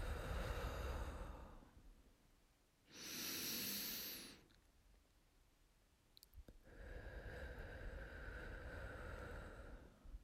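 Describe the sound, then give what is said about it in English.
Deep meditative breathing during a guided sitting meditation: a loud, airy inhale followed by a long, slow, softer exhale, with no talk over it. “we're going to start with three deep breaths. Big deep breath in. Let it out nice and slow.”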